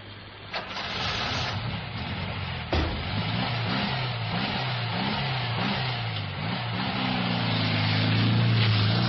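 A taxi drives away with a steady engine rumble that swells slightly toward the end. The low engine tone holds throughout, with no voices.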